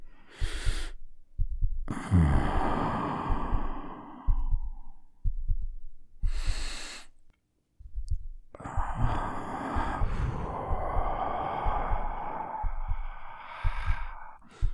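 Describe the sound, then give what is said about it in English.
Slow, deliberate breathing out, a few breathy exhalations of varying length, some long and drawn out, with soft low thuds in the pauses between them. “Accept my breath into your body and mind, into your heart, into your core.”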